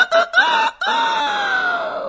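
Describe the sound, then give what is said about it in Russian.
A rooster crows loudly: a few short clipped bursts lead into a long harmonic call that rises briefly and then trails off in a slowly falling tone, heard alone. “Около 3 часов ночи петух проснулся, взмахнул крыльями и оглушительно пропел свое веселое”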